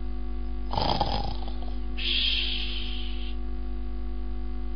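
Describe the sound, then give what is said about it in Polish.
A person imitates loud snoring: a rough, rasping snort, then a breathy hissing exhale, set against a steady low hum. “obudziłem was tym chrapaniem. No tak to działa, nie? Chrapanie budzi.”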